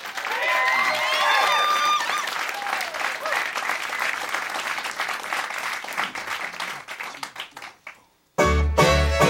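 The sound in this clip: An audience applauds to welcome a string band at a radio station's live lunch session. The thick clapping gradually thins out and dies away, and then the band strikes up loudly.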